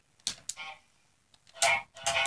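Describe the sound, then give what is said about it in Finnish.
Cartoonish goose honks from a two-player video game set in a forest: a few loud, raspy, nasal bursts in two groups separated by a short quiet pause. “Siis me honkkaillaan täällä.”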